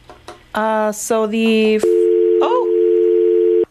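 A telephone tone follows a caller's line dropping on a live call-in line. A few shorter harmonic tones come first, then a loud steady mid-pitched tone holds for almost two seconds and cuts off abruptly.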